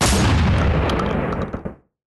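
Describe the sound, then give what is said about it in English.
Gunshots fired on New Year's night make a loud, dense burst of cracking blasts. The noise holds steady for nearly two seconds, a few sharper cracks sound near the end, and then it stops abruptly. “those weren't fireworks where you live. Those were gunshots, bro. Those were gunshots.”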